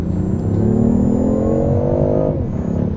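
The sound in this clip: A hybrid petrol-electric car with 275 kW combined output (170 kW petrol, 105 kW electric) accelerates hard toward 100 km/h. The loud engine note climbs steadily in pitch, then drops sharply near the end.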